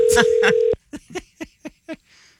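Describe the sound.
A voice imitates a phone ringing through to voicemail: a loud, steady buzzing tone with two pulses, then a run of five short, clipped vocal beeps.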